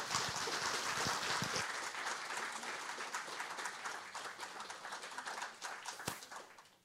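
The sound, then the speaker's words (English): Applause from a church audience welcoming a guest speaker to the front: dense, steady clapping from many hands that holds loud for several seconds, then gradually thins and fades away at the end. “So if you would do me a favor, put your hands together, welcome a man that I love deeply.”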